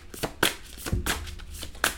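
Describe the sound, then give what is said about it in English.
Cards being handled as one is drawn from a tarot deck: a few crisp, papery snaps and slides with a soft low thump between them. “let me take a card from the Gypsy Tarot.”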